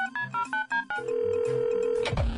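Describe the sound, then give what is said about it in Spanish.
Telephone being dialed: a few short, bright keypad beeps in a quick uneven run, then a long steady ringing tone that ends in a brief downward-swooping sound. “Déjeme marcar.”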